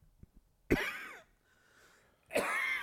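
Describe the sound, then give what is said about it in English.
Two harsh, loud coughing bursts from someone fighting a two-week cold, separated by a quieter pause with a faint low murmur, plus a couple of tiny clicks before the first cough. “oh, random attack. Yeah, I'm still fighting. Man, I've been fighting this cold, like this cough, for like 2 weeks now.”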